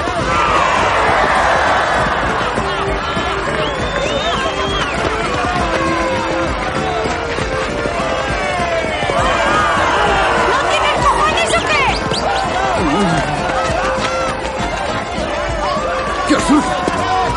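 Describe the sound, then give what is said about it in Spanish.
Crowd in the stands at a bullfight, a loud, continuous roar of many voices with shouts and whistles rising above it, steady throughout with a few brief peaks near the end. “el mundo disfruta del espectáculo, tanto los que se encuentran en las gradas como los valientes que se atreven a torear. Algunos se acercan al toro y le asestan patadas para provocarlo.”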